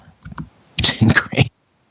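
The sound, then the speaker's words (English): Computer keyboard being typed on to send a chat message: a short patter of key clicks, a pause, then a longer, denser run of rapid tapping that stops abruptly. “He can't hear us, so I'm just going to type him a message.”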